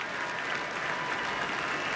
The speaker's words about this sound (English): Our artists bowing to the audience now, who are offering a standing ovation.